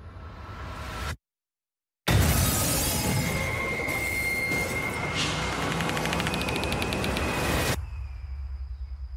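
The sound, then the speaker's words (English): A bomb explosion: after a moment of silence, a loud, broad roar bursts in and holds for several seconds, then cuts away to a quieter low rumble. “What happened? A bomb, I think.”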